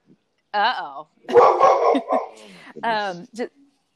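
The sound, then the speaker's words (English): A hypervigilant dog barks and yips in several short bursts, with high, wavering yelps and whine-like cries between sharper barks, separated by brief gaps of silence. “We've got this dog is so hypervigilant.”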